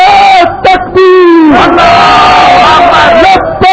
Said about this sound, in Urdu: فضاؤں مکیوں کو فضاؤں میں لہرائیں تاکہ کشتی ختم ہو۔ نعرہ تکبیر، جھنڈے بھی کھولیں، شاباش۔